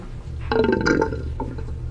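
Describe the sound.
An empty shower pipe gives a short, tonal, burp-like gurgle in an apartment, with no water coming out; the sound swells for about half a second, then fades to a faint trailing rumble.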